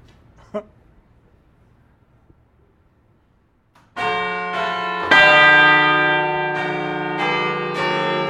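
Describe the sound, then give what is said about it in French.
Six church bells of Notre-Dame cathedral ring together after a near-silent lead-in with one faint click, entering abruptly as a loud, rich, sustained metallic peal that swells with a second strong stroke and keeps resonating with repeated strikes. “C'est exceptionnel. Nous venons d'entendre 6 cloches.”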